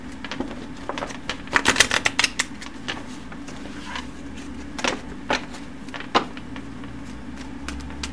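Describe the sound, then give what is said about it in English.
Tarot cards being shuffled and drawn for a reading: dry papery flicks and snaps come in irregular bursts, densest early on, then scattered single slaps and rustles over a faint steady hum. “There we go. We got the one card. Leo, you got the Knight of Pentacles.”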